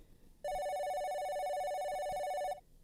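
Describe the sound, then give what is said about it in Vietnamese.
A telephone rings with a single steady electronic bell tone. The bright, buzzing ring is clear but moderate in level, and it sounds alone for about two seconds before stopping abruptly. “Tiếng chuông điện thoại vang lên”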